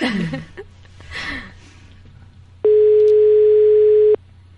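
A telephone ringback tone on an unanswered call: one steady, sustained tone lasting about a second and a half, loud and unbroken, after a quieter stretch of faint background sound.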